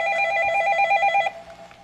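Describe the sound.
A telephone rings for an incoming call: one steady, warbling electronic ring lasting just over a second, then it cuts off, leaving faint background noise.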